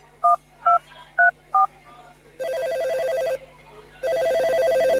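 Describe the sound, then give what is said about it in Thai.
Telephone keypad dialing a four-digit anti-corruption hotline: four short, evenly spaced tone beeps, followed by two longer, buzzing ring tones separated by a brief pause. “พ่อโทรแจ้งสายด่วนปปช.1205 นั่นแม่ก็โทรเลยแล้วกันนะ”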